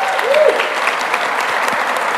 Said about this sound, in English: Round of applause for these young men, right?